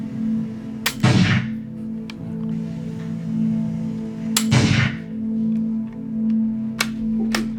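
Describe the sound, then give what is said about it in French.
Rifle shots fired with .30-06 calibre ammunition: two loud, sharp cracks, each trailing off in a brief rumbling decay, followed by a few fainter clicks, all over a steady low hum. “Donc j'ai tiré avec du 30-06, donc qui est un calibre assez standard,”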